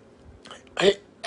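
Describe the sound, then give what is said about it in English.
Hiccups during a church service: a few short, abrupt throaty catches, the middle one the loudest, set between quiet pauses. “I don't know why I had the hiccups tonight.”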